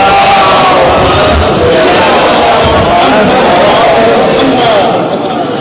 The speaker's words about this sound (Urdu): بار دیگر نعرہ صلوات.